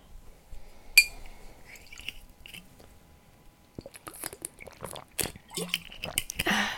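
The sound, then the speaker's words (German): A person takes a sip of a drink, beginning with a single sharp clink like a glass being touched, then a quiet stretch followed by a run of moist, crackly mouth noises of uneven rhythm, with no talking. “Obwohl, er trinkt einen Schluck.”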